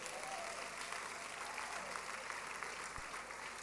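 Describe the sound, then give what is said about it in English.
Applause from a church audience, dense and steady clapping that fills the whole clip at an even level with no voices standing out. “and put your hands together for them, church? Welcome. No, no, stand and face me. Welcome. Oh, you start put your hands together for them.”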